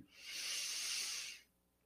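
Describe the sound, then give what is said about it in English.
A single long, deep breath during a guided breathing exercise, a soft airy hiss that swells, holds steady, then fades out quietly. “Take a minute right now to close your eyes with me. And let's take a deep breath together.”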